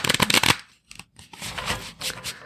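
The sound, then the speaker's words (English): Shuffling of an Angel Wisdom Tarot deck: a brisk burst of rapid card riffling, a short pause, then a longer stretch of softer sliding and flicking of cards. “Okay, so let's do a little card reading for the collective.”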